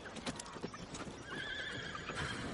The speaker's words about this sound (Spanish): Dos jinetes entran en el castillo negro.